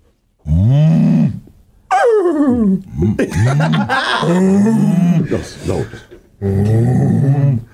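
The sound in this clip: A man's voice imitates a dog, barking and growling in a few drawn-out, throaty bursts with short gaps between them. No other voices or sounds stand out.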